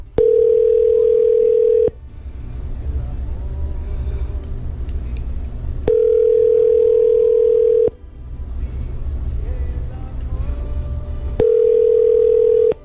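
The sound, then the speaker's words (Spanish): Telephone ringback tone while a call is being placed: three loud, steady, single-pitched tones about two seconds each, separated by roughly four-second pauses with low background hum. “Así que, sin más ni menos, aquí va la llamada.”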